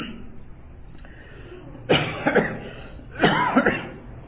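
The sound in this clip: Coughing from someone with a spring allergy, two rough bouts of several quick coughs each, following a stretch of low background noise.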